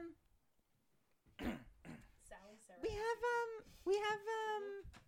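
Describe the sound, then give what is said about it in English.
A young girl clears phlegm from her throat in a few short, rough bursts, then her voice follows in high, voiced sounds. “She just got something in her throat. A little Who the fuck knows? A little bit of phlegm.”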